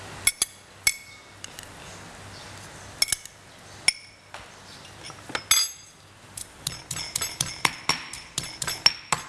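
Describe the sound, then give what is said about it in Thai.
Garlic and bird's eye chillies pounded in a mortar for a spicy salad dressing: many sharp, hard knocks, sparse at first, then coming faster and more regularly toward the end. “ก็โขกกระเทียมอาจจะสับพริกขี้หนูแต่อันนี้ใช้โขกให้เข้ากันนะคะทำน้ำยำ”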